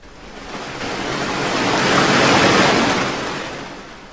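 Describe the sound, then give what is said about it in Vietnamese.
Ocean waves crash down near a small boat, a broad roar of rushing water that swells steadily, peaks around the middle and then slowly recedes. No voices are heard. “Ngọn sóng quật xuống”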